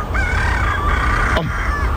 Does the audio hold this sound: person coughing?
no